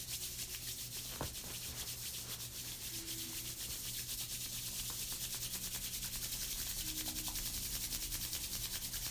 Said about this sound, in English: rubbing our hands nice and warm